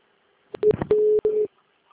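A telephone's incoming second-call signal sounds as a few short electronic beeps and longer steady tones at a fixed pitch, alone against silence.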